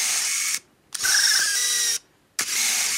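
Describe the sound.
Whirring of a robotic prosthetic hand's motor as it opens and closes: three buzzy mechanical whines separated by brief pauses, with no talk.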